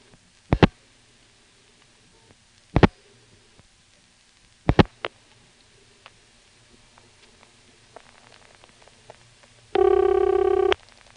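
Telephone line sounds on a nondescript trunk in a phone exchange office, checked for its ring and busy: a few sharp, loud clicks spaced apart, fainter ticks, then one steady buzzy tone lasting about a second at the end.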